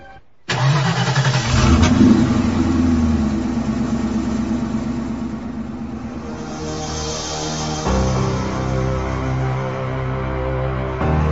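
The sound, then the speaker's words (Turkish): A truck engine rumbles as the truck creeps slowly along a rough road carrying nitroglycerin. It starts abruptly and holds a loud, continuous low drone, with a slight shift in tone partway through. “Aman dikkat et Juan. Yol çok boz. Korkma çok ağır sürüyorum”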